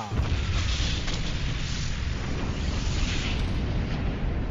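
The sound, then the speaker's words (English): Photon torpedoes fired at an enemy spacecraft and exploding in a space battle: a loud, continuous, roaring blast of noise that holds steadily for several seconds without distinct separate shots. “Ship is under attack. Battle computers activated. Defensive shield enabled. Firing photon torpedoes.”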